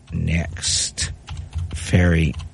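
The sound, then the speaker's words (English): Computer keyboard typing as a web address is entered: bursts of quick, crisp key clicks mixed with a person talking. “So I'm going to go do not block this site again, continue to this website and see if it will let me. And then I'm going to type it again.”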